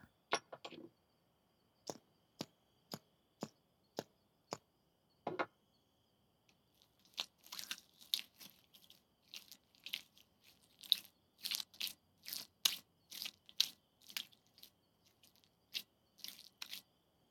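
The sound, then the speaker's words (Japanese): Oil ear massage rubbed close to the microphone: a series of separate soft taps opens, then a long stretch of dense, wet, crackly rubbing and squishing with many irregular bursts, with no talk. “続けてお耳のマッサージもさせていただきます。オイルを足してなじませてっと。”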